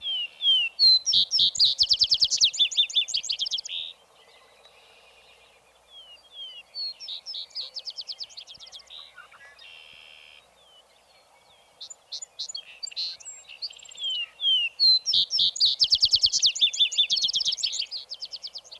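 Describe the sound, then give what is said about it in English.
A vesper sparrow sings at twilight, delivering several high, trilling song phrases with bright slurred notes, separated by short pauses, the longer bursts at the start and end. “And then gives over to the vesper sparrow that does his finest singing in the twilight.”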